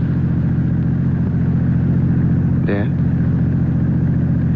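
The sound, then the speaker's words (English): A car engine hums steadily while someone drives at nearly midnight, a constant, loud, low drone with no clear revving, holding even throughout. “All you're doing is driving.”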